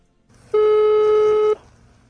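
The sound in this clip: A telephone call's ringing tone sounds as one loud, steady electronic tone held for about a second, with no talk around it.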